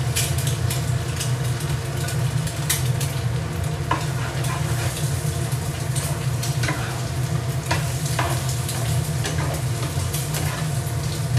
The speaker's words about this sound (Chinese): 我们也可以下先下一点蛋，我怎么把下蛋给忘了？我自己会比较喜欢往里面放点蛋啊